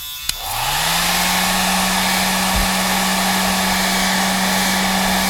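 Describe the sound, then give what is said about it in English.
A hair dryer clicks on, its motor hum sweeping quickly up to a steady low tone beneath a loud, continuous rush of air that runs unchanged to the end. “comes and dries her hair.”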